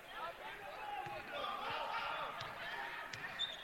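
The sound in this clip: Basketball dribbling on a gym court during a women's college game, Gardner-Webb against Montreat, with a few steady low thumps of the ball bouncing beneath continuous crowd noise and talk.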